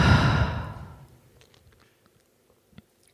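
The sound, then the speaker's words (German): A deep breath flows out in one long, breathy rush during a guided in-and-out breathing exercise, loud at first and fading away within about a second, followed by near silence with a few faint clicks. “über deine Nase ein und über deinen Mund gerne aus. Tu das nochmal. Atme ein und aus.”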